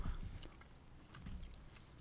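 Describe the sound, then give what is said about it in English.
A cookie is bitten and chewed, faint crunchy crackles and soft irregular clicks of mastication with no talking. “I'm going to try another quick bite of the... It smells good. Yeah, I'm going to try another little bite.”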